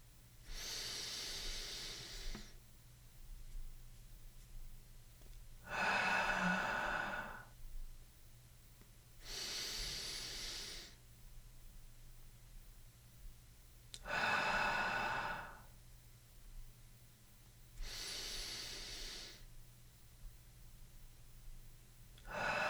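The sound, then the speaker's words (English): Slow guided breathing during a mindful-eating meditation: several long, evenly spaced breaths with soft airy hiss, each followed by a quiet pause, with no talk over them. “before being exhaled for the same duration of time. Your eyes should remain open while you do this. You can breathe along with me.”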